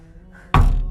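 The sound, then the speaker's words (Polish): Knocking on a door, heard as one loud, dull thump that rings on briefly over a faint low hum. “Chryste! Chryste, ileż można pukać?”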